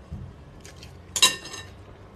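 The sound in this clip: Cutlery and dishes clink during a meal: one bright clink rings out, with a few faint knocks before it, and no talking.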